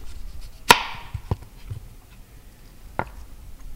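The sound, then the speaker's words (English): A knife cuts a thin slice of Indiana apple for a cocktail garnish, giving a few sharp, isolated taps on a quiet background; the first is the loudest, followed by softer cuts. “And then I'm just going to garnish it with a nice thin slice of an Indiana apple.”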